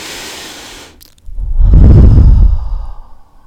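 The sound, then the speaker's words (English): Deep breathing during a guided breathing exercise: a soft, quiet inhale is followed by a long, loud, airy exhale that swells and then fades, with no talk. “Now, please close your eyes and let's inhale and exhale together.”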